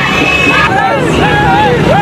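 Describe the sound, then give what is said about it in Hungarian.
Celebrating crowd in Timbuktu waving French and Malian flags after French troops entered the city: a dense, continuous hubbub of many voices, with high wavering vocal tones rising and falling above the steady noise. “Francia és Mali zászlókat lengető tömeg örömünnep Timbuktuban, miután bevonultak a városban francia csapatok”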